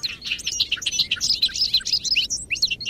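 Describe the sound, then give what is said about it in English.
Bobolink song in a large hayfield in western New York in early May: a dense, continuous run of bright, bubbling high chirps and warbles, with no talk. “We're standing in a large hayfield in western New York State, where bobolinks are returning to nest.”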